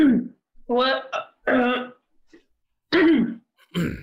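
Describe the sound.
A person repeatedly clearing their throat after getting excited: several harsh, voiced, guttural bursts with short pauses between them.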